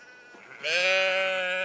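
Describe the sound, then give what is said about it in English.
A lamb gives a single loud, sustained bleat with strong, clear harmonics that starts abruptly after a quiet lead-in and holds steady to the end. “Man, it's lamb fest over here. Loads of baby lambs.”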